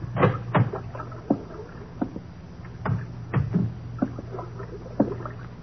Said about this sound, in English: How about this lock? Can you handle it? Sure. Got it.